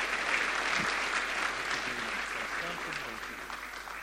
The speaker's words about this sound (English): So let's put our hands together.